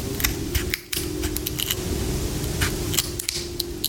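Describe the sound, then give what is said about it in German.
Scissors snip off leftover strip remnants after measuring with a ruler, giving a series of sharp cutting clicks over a steady low hum, with no talking. “Und dann nimmt man das Lineal und misst 10 cm ab und schneidet die Überreste auf der anderen Seite auch noch ab.”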